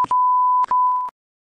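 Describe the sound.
A censor bleep over speech: a steady, high-pitched electronic tone runs for about a second with one brief break, ending abruptly and followed by silence.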